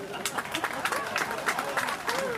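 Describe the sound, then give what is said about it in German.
Applause for visiting market traders from a crowd holding umbrellas: a thin, uneven patter of claps over a steady murmur, with voices talking through it. “Schon Moment für Applaus.”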